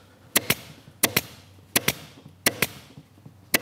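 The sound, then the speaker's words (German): A staple gun drives staples into a webbing strap with crisp, loud snaps in quick pairs: four pairs spaced evenly, then a single shot at the end, with quiet between. “Beim Schießen vom Gurt sollte man die Tackerklammern diagonal zueinander setzen, um einfach mehr Tackerklammern auf die Breite des Gurts verteilen zu können.”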